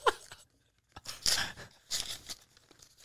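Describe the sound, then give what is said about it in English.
A paper envelope holding a Christmas card and a check is ripped open in a few rough, crackling tearing bursts, fairly faint, with short pauses between pulls. “I'm sorry for ripping the envelope.”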